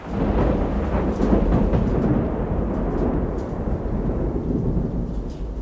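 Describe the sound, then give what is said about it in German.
A thunderstorm with heavy rain breaks over a harbor, a dense, steady roar of rainfall mixed with deep rumbling thunder, loud and continuous with no voices. “Das Unwetter brach los mit aller Macht, als wir buchstäblich in letzter Sekunde den Hafen von Bastia erreichten.”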